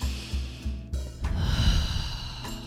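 A deep breath drawn in through the nostrils and let out through the mouth during a guided breathing exercise. It is a soft, airy rush of moderate loudness, with a low pulsing beat underneath.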